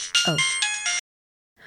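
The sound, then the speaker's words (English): A cell phone goes off in short, bright electronic ringtone notes for about a second, then cuts off abruptly into silence. “Whose cell phone is going off?”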